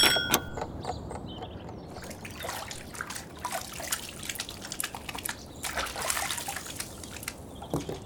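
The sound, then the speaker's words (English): Water runs and trickles steadily while someone washes their face and hands, with scattered splashes and drips throughout. “It's morning, so I wash my face. And I wash my hands.”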